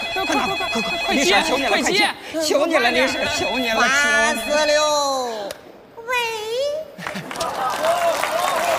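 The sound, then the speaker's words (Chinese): A telephone rings with a melodic, tonal ringtone, mixed with overlapping voices talking throughout at a moderate level. “李婶，老头电话，老头电话，”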